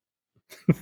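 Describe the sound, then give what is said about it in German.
A person coughs in two rough, quick bursts, the second slightly louder, heard alone after a moment of silence. “Also muss ich gerade mal eben husten, sorry.”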